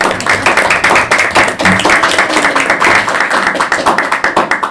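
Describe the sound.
Audience applause welcoming a speaker to an academic talk: loud, steady clapping from many hands, continuous and dense throughout, with no voices over it.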